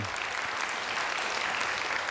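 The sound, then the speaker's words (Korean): Audience applause welcoming a presenter who builds musical instruments from discarded trash: steady, continuous clapping at a fairly low level throughout, with no talking. “우리 송소리 박사님을 큰 박수로 맞이하겠습니다”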